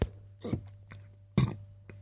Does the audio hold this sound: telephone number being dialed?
no